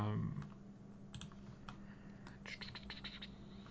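Faint typing on a computer keyboard, with quick light key clicks coming in small uneven bursts, clustered more densely toward the end, over a low steady background hum.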